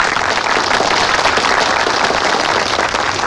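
Applause from a gathering welcomes a new guerrilla brigade leader sent by the Party. The dense, loud clapping is steady and continuous throughout.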